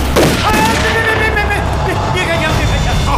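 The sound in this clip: Gunfire erupts during an armed standoff, loud and dense, mixed with shouting voices throughout.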